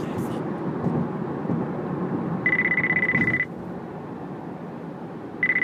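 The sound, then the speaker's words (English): A mobile phone rings with a high, warbling electronic tone in two bursts, one about a second long and another starting at the end, over a steady rumbling background noise. “Is that your phone? That is my phone.”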